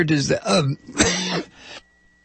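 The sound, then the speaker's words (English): Harsh coughing and throat clearing from someone with a persistent cough: a few rough, raspy bursts in quick succession, fairly loud, then quiet. “sorry about that, this damn cough is just going to kill me, I swear it is.”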